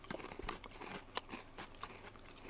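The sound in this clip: Crisp crunching bites into a chocolate-soaked Nanbu rice cracker: a few quiet, brittle cracks with a couple of sharper snaps, heard alone without talk.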